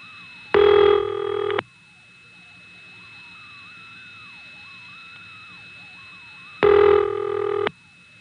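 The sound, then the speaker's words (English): Two loud telephone ring bursts, each about a second long, from a Stromberg-Carlson common-control step exchange at an independent phone company in Prince William County, separated by several seconds of faint steady tone and quiet line noise. “You can hear the Stromberg-type ring on this next call.”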